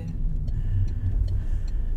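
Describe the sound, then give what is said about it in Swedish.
A car drives along a road out into the forest, giving a steady low engine and tyre rumble that stays even throughout, with no talk. “Då ska vi köra ut i skogen här då.”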